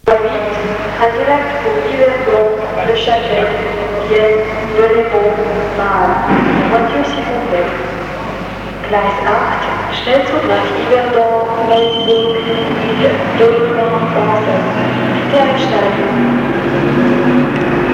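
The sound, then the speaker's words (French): Railway station ambience near escalators leading to the train platform: a continuous, fairly loud bed of rail rumble and hum with tonal layers, and voices running throughout. “Il se dirige vers les escaliers roulants qui le mènent au quai.”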